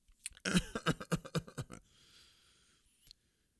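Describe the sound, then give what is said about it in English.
A person coughing on purpose as a demonstration: a quick run of several harsh, throaty coughs, then a quiet breathy trail and silence. “Cough, cough, C-O-U-G-H, coughing.”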